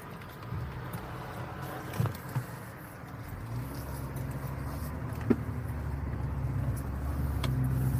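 A car being driven gives a steady low engine and road rumble with a few faint knocks. The rumble slowly grows louder toward the end, and no one speaks.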